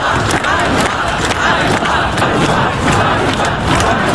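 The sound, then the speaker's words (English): Crowd of protesters gathering in Kyiv, Ukraine, after the dismissal of the country's defence minister: a dense, steady roar of many voices that stays loud and unbroken throughout. “Now to Ukraine, where protesters are gathering in the capital Kyiv and other cities around the country after the surprise sacking of the country's popular defence minister.”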